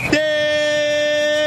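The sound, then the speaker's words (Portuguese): A referee blows the final whistle at a football match in Porto Alegre. It is one long, loud, steady blast held at an even pitch for more than a second. “quando apita o árbitro paranaense Lucas Torezin.”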